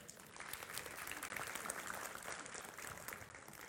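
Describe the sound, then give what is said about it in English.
Audience applause: many hands clap steadily in a dense, even wash that holds at a constant level for the whole stretch, with no voices over it. “And so give him a hand, all right?”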